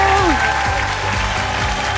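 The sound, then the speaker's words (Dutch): Studio audience applause at a quiz show recording in Brussels: loud, dense, continuous clapping from a crowd that holds steady throughout. “Goed, goede klappers heb ik graag.”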